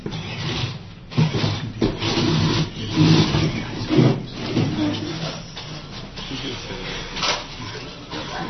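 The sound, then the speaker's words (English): A robot built by a student team drives around, its motor whirring and scraping in uneven bursts that swell and fade, with louder surges near the middle. “So I'll let them show the robot off a little bit”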